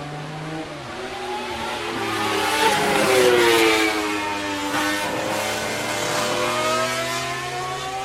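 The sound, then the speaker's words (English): A couple of 1970s Hondas pass at a motor racing event. Their layered harmonic engine whine swells to a peak around the middle and falls in pitch as they go by, staying loud afterward. “Oh, a nice couple of Hondas just went by from the 70s.”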